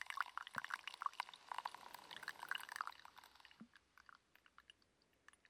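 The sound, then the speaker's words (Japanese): Hot water spilling while being poured over coffee, a soft, uneven splashing trickle for about three seconds that then dies away to near silence. “明らかにこぼれた音がしたね。”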